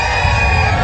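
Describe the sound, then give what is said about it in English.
Thousands of rodeo fans cheer at the 4th of July Makawao Stampede on Maui, Hawaii's largest rodeo: a brief, loud, dense crowd roar with no breaks. “That's the sound of thousands of fans at the 4th of July Makawao Stampede on Maui.”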